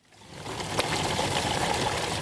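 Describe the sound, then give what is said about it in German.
Water runs from the natural spring at Newlands Springs, set in a middle-class neighbourhood of Cape Town during a severe drought. A steady, hissing rush swells in over the first half second, then continues evenly at moderate loudness with no voices. “Bei den Newland Springs, einer natürlichen Quelle mitten in einem Mittelklassequartier in Kapstadt, herrscht Andrang.”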